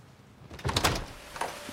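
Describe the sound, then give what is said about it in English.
A house's front door is opened: a cluster of loud clunks and rattles, followed moments later by a softer, single knock. “At Charles's house, Herb opens the door and slowly steps inside.”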